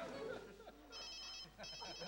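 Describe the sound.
A telephone ringing in two bursts of bright electronic trilling, heard under people talking.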